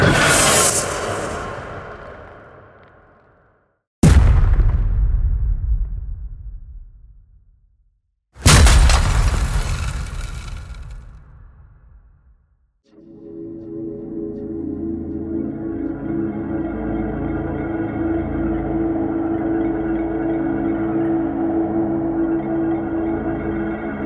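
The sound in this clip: Movie trailer sound effects from a sample pack: three heavy booming impacts, each with a long decaying rumble, followed by a sustained, swelling low drone that holds to the end.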